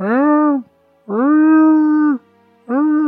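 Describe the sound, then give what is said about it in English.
Three drawn-out, mournful wails like a wounded deer, attributed to a wombat in a tabletop game, each a loud, steady tonal cry separated by brief silences. “That doesn't sound like a man. That sounds like a wounded deer. It's the wombat.”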